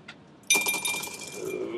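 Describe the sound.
Dice clatter during an Advanced Squad Leader board wargame: a faint tap, then a sudden bright rattling burst that keeps tumbling and clinking for over a second at moderate loudness.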